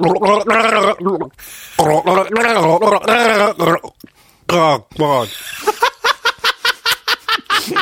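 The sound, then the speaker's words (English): Gargling used to imitate the bass line of a pop song: voiced, bubbling gurgles in sustained phrases, then a run of many short, evenly spaced rhythmic pulses. A voice carries the melody through the water. “Do you want me to gargle the bass line? If you could.”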